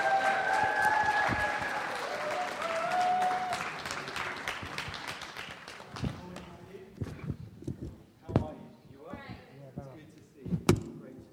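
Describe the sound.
A church audience applauds to welcome a speaker to the platform, with thick, steady clapping that gradually thins and fades out, followed by a voice speaking among a few scattered thumps and knocks.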